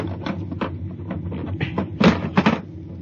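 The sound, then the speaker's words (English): Scraping, clunking bursts as a floor panel is pried up to reach a bulkhead release in a science fiction radio drama. Faint scuffs build to two louder, harsher knocks near the end. “Where's the release? Under the floor panel. You can pry it up. All right, hurry. I got it, I got it.”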